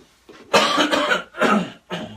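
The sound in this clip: Rough, loud coughing and throat clearing during a spoken Bible reading on Revelation: a faint first catch, then a few strong, harsh coughs separated by short pauses, with no speech.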